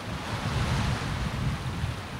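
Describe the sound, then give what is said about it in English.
Waves lapping on a wide lake shore make a steady, unbroken wash of noise with wind rushing through it. No one speaks. “And I'm standing here looking at the endless water. It looks like it goes on forever. I mean, I know it's a lake, but it feels like I'm back home along the ocean.”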